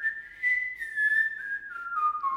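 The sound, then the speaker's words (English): A person whistles one steady, clear tone that holds for about two seconds, then slides gradually lower toward the end. The whistle is alone, with no talking. “Yours is better by like 2 centimeters. Oh God, my friend Matt can whistle so well.”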